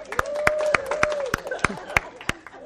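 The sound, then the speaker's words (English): Applause from a class welcoming a new member: a steady series of sharp, evenly spaced claps at moderate loudness, with a voice humming along underneath. “Let's give her a hand.”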